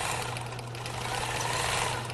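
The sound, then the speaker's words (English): A shop sewing machine attaches Greek letters to a sorority sweatshirt, giving a loud, steady mechanical drone with a low hum that runs without a break. “Wanda Courier sits at the shop sewing machine, attaching Greek letters to a sorority sweatshirt”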